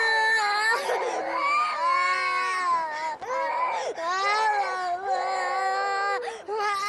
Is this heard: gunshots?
no